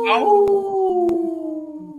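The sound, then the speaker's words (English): A wolf howl: one long, clear, tonal cry with rich harmonics, holding steady and drifting slowly lower in pitch. Its loudness wavers gently as it trails off, with two brief clicks along the way. “protecting wolves for future generations. Oh. Howl.”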